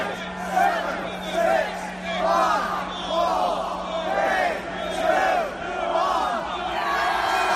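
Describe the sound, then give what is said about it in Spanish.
Crowd of thousands gathered outside Number 10 Downing Street, counting down the seconds to celebrate Brexit, with loud shouted bursts about once a second over constant cheering and babble. “Es el sonido de las miles de personas reunidas frente al número 10 de Downing Street, contando los segundos para celebrar el divorcio del Reino Unido con los 28.”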